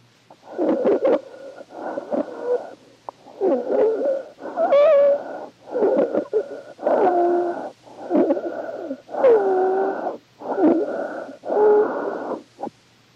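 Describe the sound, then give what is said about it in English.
Breath sounds heard over the neck in a medical case study: many regular inhale and exhale cycles of harsh, hollow airflow, with whistling wheeze-like tones inside several breaths, and brief quiet gaps between them. “Case study number 2, breath sounds over the neck.”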